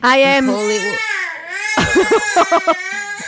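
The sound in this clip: A toddler cries during a tantrum in a video being played back, with loud, wavering high wails that break into choppy sobbing bursts and brief gasps.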